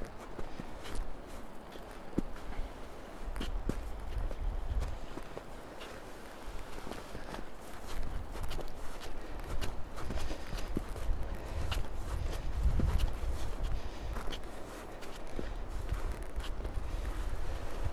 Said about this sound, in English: It's just ambient sound of us going down a crazy steep hill on ice.